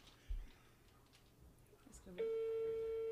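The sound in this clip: Telephone ringing tone from an outgoing call: after a soft thump and quiet background, a steady, buzzy, mid-pitched tone starts partway through and holds unbroken to the end.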